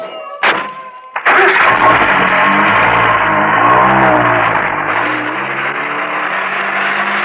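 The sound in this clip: A car drives off: a couple of sharp thumps, like doors shutting, then an engine starts into a steady, loud rumbling drone that holds to the end.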